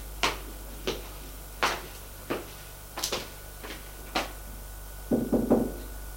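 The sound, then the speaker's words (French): Knocking on a bedroom door: several separate raps spaced roughly a second apart, then a quick cluster of knocks at the end, all over a steady low hum. “Pour aller frapper à la chambre de sa femme.”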